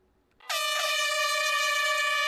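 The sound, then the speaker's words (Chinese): An air horn blast signals the start of an orienteering challenge race in a park: one loud, steady, harmonic blare that begins abruptly after a quiet moment and holds unbroken to the end. “随着一声鸣笛，科普定向挑战赛正式开跑。”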